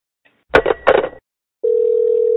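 A telephone dial tone heard while calling someone's personal number: two short, noisy bursts, then a steady, unbroken mid-pitched hum that holds to the end.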